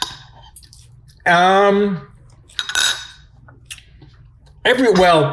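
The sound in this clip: Cutlery clinks and scrapes against a dish as someone eats a salad with dressing, the utensil sounds mixed with brief voiced sounds between bites.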